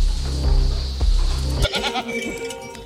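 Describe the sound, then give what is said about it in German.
A big goat gives one long, loud, buzzing bleat lasting well over a second, followed by softer rustling and faint, thin tones. “Das ist aber auch eine schöne große Ziege, die 22.”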